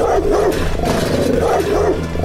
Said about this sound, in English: That dog hears you guys and starts banging itself against the gate again and freaking out.